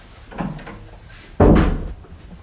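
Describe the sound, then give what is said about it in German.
A bathroom door being shut: a soft rubbing movement, then a solid, dull thud as the door closes, followed by quiet. “Soll ich die Tür wieder zumachen?”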